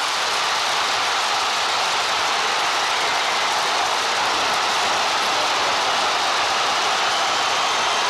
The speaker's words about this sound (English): Pina, and others celebrate. You can really hear the thrill and even the shock of the crowd.